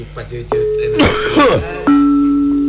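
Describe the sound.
A man's single rough, raspy cough bursts out in the middle of ongoing speech, briefly louder than the talking around it.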